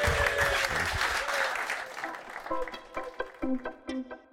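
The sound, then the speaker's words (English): Audience applause welcoming a guest at an event in Coventry's Sky Blue Tavern: loud, dense clapping that thins out and fades as a voice begins speaking over the last scattered claps. “Would you please put your hands together and welcome Steve Ogrizovic.”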